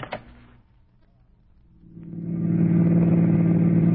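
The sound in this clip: Car engine while driving: after a brief noise at the start and a quiet stretch, a low engine drone swells up and settles into a steady, fairly loud hum, with no talking.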